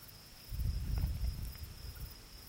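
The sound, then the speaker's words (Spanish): Crickets chirping at night in Cadaqués, a steady, unbroken high trill held at an even level. It is faint overall, with a soft low rumble rising beneath it partway through. “Suenan los grillos y unos débiles tambores en la lejanía.”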